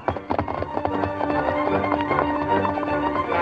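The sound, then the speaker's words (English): A horse galloping hard after its rider calls out, fast rhythmic hoofbeats drumming steadily and loudly through the whole stretch. “Silver, his great muscles gleaming in the sunlight, sprang forward at his master's call and raced after the fleeing crook.”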